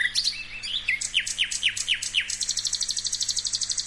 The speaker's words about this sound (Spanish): Es un ruiseñor, fallamos. Ah, un ruiseñor local acá.